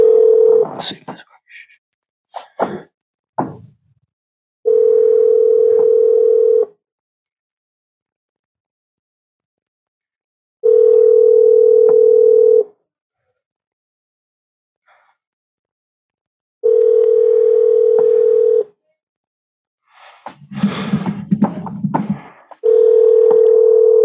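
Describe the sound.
Phone line tone after dialing an area code with a *67 prefix: brief key tones and clicks at the start, then a steady mid-pitched tone repeating in long, evenly spaced bursts, with some rustling near the end.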